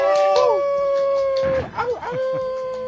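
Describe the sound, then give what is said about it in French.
A wolf howls in long, drawn-out, wavering tones that hold steady, break off briefly in a rough dip, then resume at a similar pitch. The howling is fairly loud and stands alone. “C'est Fenrir, le loup d'Asgard.”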